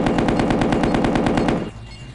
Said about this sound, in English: Neutral. Machine gun.